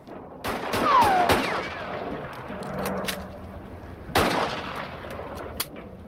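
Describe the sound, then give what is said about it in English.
Gunfire from a handgun fired with both hands during a shootout: several sharp, loud cracks in a quick burst, then a quieter stretch, then a few more shots. “Joe takes shelter behind a barrel, then rising to his feet and firing with his gun held in both hands, shoots the man in the shoulder.”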